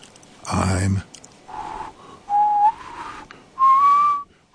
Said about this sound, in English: I'm whistling. I whistle and whistle.